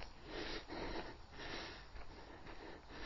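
Quiet breath drawn in through the nose before an exercise rep, a faint, steady airy inhale with slight pulsing that fills the whole moment.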